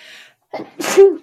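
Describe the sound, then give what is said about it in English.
A single human sneeze: a faint sound, a short quick intake of breath, then one loud explosive burst that tails off. “I feel like I'm going to sneeze.”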